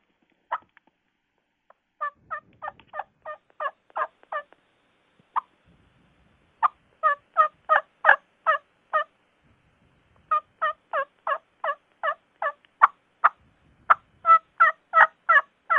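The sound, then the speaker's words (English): Soft hen turkey yelps imitated on a turkey call, sounding in several runs of many short, evenly spaced raspy notes. Brief quiet pauses separate the runs, and no other sound breaks the silence between them. “And if you listen to a hen turkey walking through the woods, or even when she's calling to a gobbler, she's subtly making soft, sweet noises all the time. So I try to do something like this”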